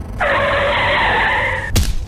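Car tires squeal in a long skid on a drive in Australia, a sustained high, wavering screech lasting about one and a half seconds. The screech cuts off abruptly and is followed by a short, loud burst of noise.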